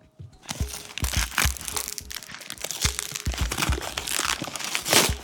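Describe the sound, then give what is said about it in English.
A package is unwrapped from a box, giving continuous crinkling, crumpling and crunching of wrapping material in irregular bursts, moderately loud, with no one speaking. “All right, I'm unwrapping this.”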